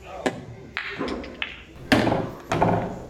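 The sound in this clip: Billiard balls clack sharply during a combination shot that sinks the 4 ball into a corner pocket in a pool game. Several crisp, irregularly spaced knocks stand alone, with no talk.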